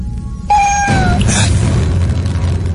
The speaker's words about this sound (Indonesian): suara kucing